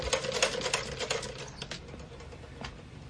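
Clattering of a sewing machine in a rundown cobbler's workshop, rapid mechanical taps that run dense and fairly loud at first, then thin out into a few scattered taps.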